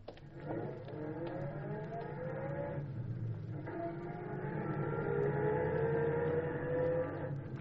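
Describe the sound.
A taxi cab drives along the bay in a 1955 radio drama, its engine a continuous low drone with a wavering tonal whine running steadily throughout.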